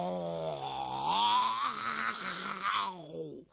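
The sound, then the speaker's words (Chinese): A human voice imitates a tiger's roar in one long, drawn-out growling wail lasting over three seconds. The pitch lifts slightly early on, holds, then sinks and fades out at the end. “说罢伸出虎爪，轻轻推开崔生，而后大吼一声：哦，”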